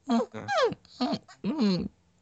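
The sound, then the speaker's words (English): A person imitates a dog whimpering, giving four short, whiny cries with sliding pitch. “When he is fat, apparently he was whimpering like a dog”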